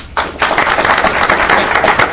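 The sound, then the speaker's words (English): Audience applause: a dense, steady wash of clapping that starts abruptly after a brief quiet moment and carries on evenly to the end. “Applause.”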